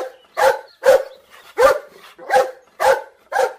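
Dog barking: six sharp, loud barks in an uneven rhythm, with short silent gaps between them and no other sound.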